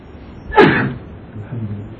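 A single sneeze from a man during a religious lesson: one short, forceful burst that trails off quickly against a quiet background.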